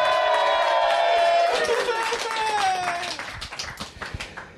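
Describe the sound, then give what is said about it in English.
Live lounge room audience giving an ovation, loud cheering and whooping over clapping, easing into scattered claps toward the end. “What an ovation. We are live. We are lounging and podcasting for the 199th episode with a live lounge room audience.”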